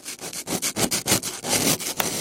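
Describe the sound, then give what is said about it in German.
Ice blocks being sawn out of a frozen lake: a rough, rasping saw works in quick, even back-and-forth strokes, many of them, loud and continuous with no talking. “Schneeschippen, Rillen ins Eis schneiden und heute geht's ans Sägen.”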